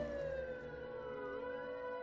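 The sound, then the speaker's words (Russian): A police car siren sounds from the street below as it passes, a loud, steady wail of layered tones that holds for the whole two seconds with no voices. “переждал, пока стихнет сирена полицейской машины, проезжающей внизу, и подошел к окну.”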